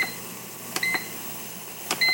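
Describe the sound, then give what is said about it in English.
An oven clicking as its browning element switches on: two soft, sharp clicks, each followed closely by a brief, high electronic beep, faint and with no talk. “That little click means the browning element has turned on.”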